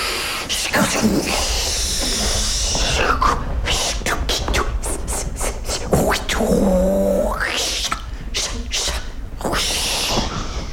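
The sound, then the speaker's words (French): Breathy hisses and puffed exhalations from an improvised breath composition, built from many short, uneven bursts of air with a brief voiced, tonal hum partway through. “Donc, avant d'utiliser du souffle, il faut prendre une grande inspiration.”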